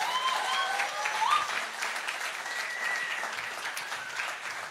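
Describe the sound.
Audience applause greeting a guest speaker as he comes up: a steady wash of many hands clapping at a moderate level, easing slightly toward the end.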